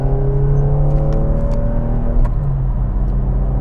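Car engine accelerating on a freeway, shifting from fourth into sixth gear at around 70 to 80 mph: a loud, steady mechanical drone with a humming low tone and a brief change in texture partway through.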